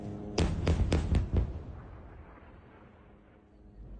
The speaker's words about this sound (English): Because we've got lots of airstrikes that are taking place over here. Look at this.